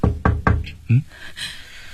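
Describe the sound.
Loud knocks on a door, three quick, evenly spaced raps followed by a brief lower thud and a faint voice-like sound.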